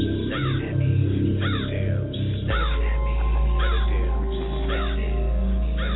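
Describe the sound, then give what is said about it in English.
Crows cawing as they fly slowly past a window: a few harsh, rasping caws repeat about once a second over a steady low hum. “Crows fly by my window, slow. Headed that way, but looking at me, though.”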